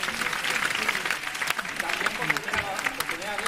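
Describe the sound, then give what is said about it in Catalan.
Applause for the jury at the Sitges film festival, a soft, steady patter of clapping with a voice speaking over it. “Un aplaudiment pel jurat.”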